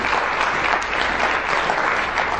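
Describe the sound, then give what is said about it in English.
Applause from a church audience praising during a service: many hands clap in a thick, steady, moderately loud patter that holds without a break. “Some of you need to give the Lord a bigger hand clap than that.”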